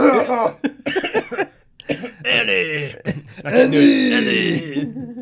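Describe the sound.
Throat clearing and coughing from a person with a tickle in the throat, several harsh rasping bursts mixed with voiced groaning sounds, close and fairly loud.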